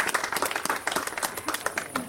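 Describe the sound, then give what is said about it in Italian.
Audience applause for a performer's wife, a lively burst of many hands clapping, with sharp, uneven claps that stay loud across the short stretch. “fategli un bel applauso alla mia moglie Terè”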